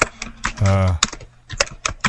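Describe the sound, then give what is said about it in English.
Loud typing on a keyboard, sharp clacking keystrokes in irregular clusters with brief pauses between, prominent and close-sounding in tone. “Boy, you type awful loud.”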